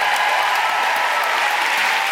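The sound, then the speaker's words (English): Sustained audience applause at a centenary celebration event, a dense, steady clatter of many hands clapping at an even, fairly loud level throughout, with no voices standing out. “So please give a huge round of applause to Jess Foster-Kew, Anita Arnand, and Rachel Holmes.”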